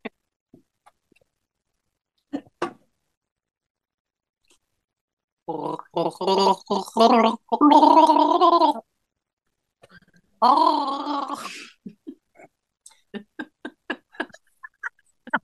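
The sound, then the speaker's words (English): A person gargles in two bubbling, voiced bursts, the first longer than the second, set between quiet stretches with scattered small clicks and mouth sounds. “Could you hear me gargling?”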